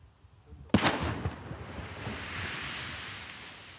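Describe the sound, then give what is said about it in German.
Controlled detonation of an American World War II fragmentation bomb in a potato field in the Osnabrück district. One sharp blast is followed by a long, noisy rumbling wash that fades slowly. The whole clip is faint. “3, 2, 1 und dann ein gewaltiger Knall. Im Kreis Osnabrück ist mitten auf einem Acker eine Bombe gesprengt worden.”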